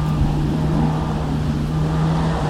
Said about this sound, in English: So I've come to an MG car club sprint. So I'm just watching a little MG midget come around the course.